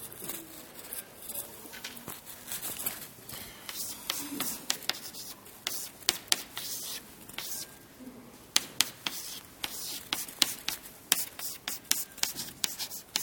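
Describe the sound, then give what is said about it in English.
Scratchy strokes of writing on a board as the structure of pyruvate is drawn in a chemistry lesson: many quick, dry scrapes and taps in uneven clusters, with a faint voice now and then beneath them. “I'm writing the structure of pyruvate on the board is what I'm doing.”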